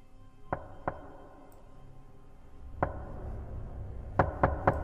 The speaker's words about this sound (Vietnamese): Bỗng nhiên có tiếng gõ cửa ở bên ngoài, là ba tiếng một.